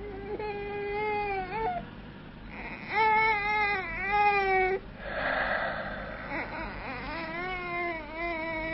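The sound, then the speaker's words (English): A baby crying and wailing in a few long, high-pitched, wavering cries separated by short gaps, with one rougher, strained outburst midway. “Another baby. Crying, wailing”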